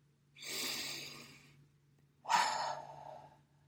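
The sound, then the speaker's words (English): A deep breath drawn in through the nose and released out through the mouth during a guided breathing exercise: a long, soft, airy inhale, a short pause, then a stronger breathy exhale that fades away over a faint steady hum. “Take another deep breath in through your nose, but out through your mouth this time.”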